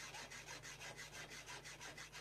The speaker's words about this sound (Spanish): El serrucho en acción, sí, señor.